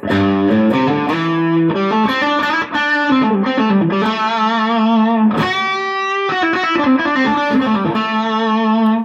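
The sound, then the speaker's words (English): Electric guitar notes played through an overdrive pedal stacked on an amp already near breakup, giving a loud, thick, squashed distortion with little dynamic variation as several notes ring and change. “So too much gain on top of one another gives a rather nasty compressed or kind of sound to the note.”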